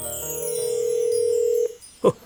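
A smartphone places a video call, giving a steady electronic tone that holds for about a second and a half. It cuts off and is followed by a brief, louder blip.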